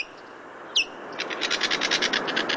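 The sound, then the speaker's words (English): White-tailed kite calls: a single sharp, high, downward-slurred whistle, then a quick series of many short, high chirps over a steady background hiss, with no talk. “white-tailed kite is a bird of prey with an uncanny ability.”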